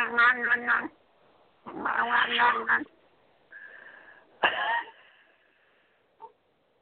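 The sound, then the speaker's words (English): A person imitates a big cat's odd meow with a few drawn-out, gravelly, harmonic vocal yowls, then a thinner tonal wail and a short final chirp. The voice is fairly loud and heard alone. “he's a big-ass cat, and he's got this little meow, but then at times he'll sit there and go,”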